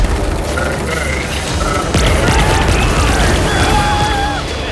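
Gunfire sound effects in an audio drama break out as a burst of shots and booms over a dense, rumbling din, with thin whistling electronic tones running through it.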